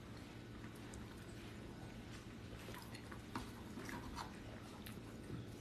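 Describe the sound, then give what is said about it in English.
Faint, quiet chewing of pancakes and plant-based Impossible sausage, with soft wet mouth sounds and a few small clicks spread over several seconds and no talking. “I'm eating pancakes and plant-based sausage, like impossible sausage.”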